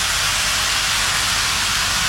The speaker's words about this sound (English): if you were trackside when the big boy steam locomotive rumbled past, you'd say something like, "Damn, that's impressive."